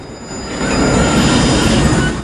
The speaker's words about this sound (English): A train pulls into the station.